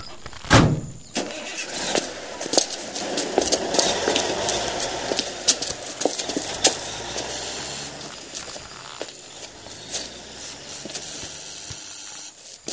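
A car starts and drives away, dense mechanical clicking and ratcheting rattles riding over a low engine rumble for most of the stretch, steady and fairly loud with no talk.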